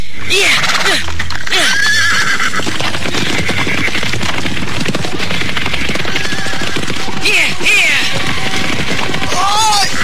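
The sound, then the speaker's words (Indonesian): Horses neighing and running around, with several loud, shrill whinnies rising and falling over a dense, busy clatter that continues throughout. “Lihat itu. Udah kuda itu berlarian ke sana kemari.”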